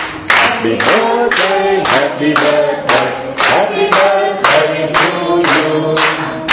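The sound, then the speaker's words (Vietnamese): Rhythmic clapping in unison as a group gives a big round of applause at a birthday celebration, with many sharp, loud beats keeping an even tempo from start to end. “Chúng ta cho một tràng hoa tay thật lớn để chúc mừng nhau.”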